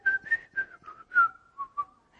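A person whistles a short, bright tune of several quick notes at a fairly steady pitch, heard alone with no talk.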